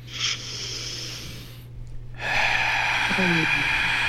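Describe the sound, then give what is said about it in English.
Deep breath drawn in through the nose during a guided breathing exercise, a long, steady, loud airy hiss lasting about two seconds. A softer breath comes earlier, and a low steady hum runs underneath throughout. “let's do it all the way in through the nose in 3, 2, 1. Let's go.”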